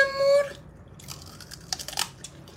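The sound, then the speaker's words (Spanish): Someone eating, with crisp crunching bites and chewing coming in a few irregular bursts after a brief quiet start. “Chicas, se está comiendo.”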